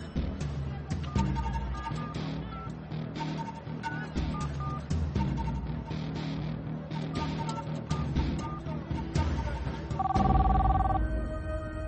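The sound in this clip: A telephone rings with an incoming call, a dense, continuous ringing pattern that stays loud and steady from start to finish.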